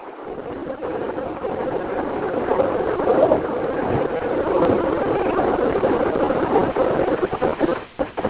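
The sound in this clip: Engine and road drone from a car being driven, a steady, muffled rumble that holds at an even level throughout, with a few brief bumps near the end.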